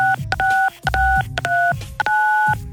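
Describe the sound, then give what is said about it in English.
A number is dialed on a telephone keypad. Several short dual-pitch beeps come in a quick, uneven sequence, separated by brief gaps. “Okay, dial 92 MONEY.”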